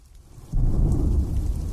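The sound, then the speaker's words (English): Heavy rain with thunder: a quiet start gives way abruptly to a deep, loud rumble and a dense, steady downpour that holds to the end, with no voices. “I was hoping the rain would let up soon, but its intensity kept up.”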